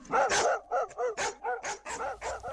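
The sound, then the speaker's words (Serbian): Stray dogs barking in a rapid, fairly regular series of sharp, loud barks, each bark a short separate burst, with no voices. “Psi lutalice su bukvalno opkolili naselje.”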